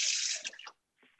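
Wet swishing of a pastry brush spreading a little water onto pastry: a sustained brushy hiss, then a short second stroke after a brief pause.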